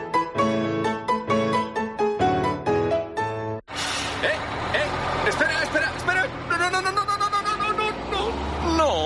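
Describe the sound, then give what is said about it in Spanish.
A bus pulls away with a loud, rough engine rumble and hiss that fills the second half, after a run of bright tonal notes. “Esa cara que se te queda al perder el autobús por unos segunditos de nada”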